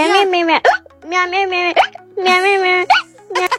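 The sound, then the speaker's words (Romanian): A six-year-old girl sings with hiccups, her voiced, tuneful phrases cut by a few sharp, hiccup-like catches and breaks between the lines. “mie îmi place să cânt cu sughițul și ea sună cam așa.”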